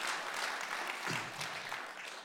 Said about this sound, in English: Do you guys love your pastors? They're awesome. Come on, let's applaud them. Let's honor them. They're terrific people.